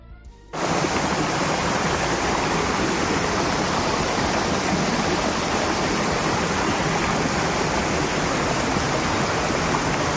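Loud, steady rushing of rainwater pouring down a flooded street turned into a torrent during a downpour of 70 litres in an hour in Tejina. The roar starts abruptly after a brief quieter moment and then holds a dense, unbroken wash.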